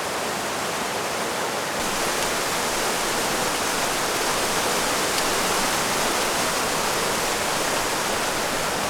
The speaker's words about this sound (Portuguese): Januário passa por grutas com quedas d'água.